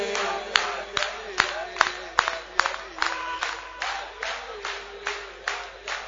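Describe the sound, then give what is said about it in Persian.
Crowd clapping in unison, many sharp, loud claps on an even, steady beat, with voices audible beneath the rhythm. “به عشق این عکاسمونم یک کف مرتب بزنید ببینم بابا”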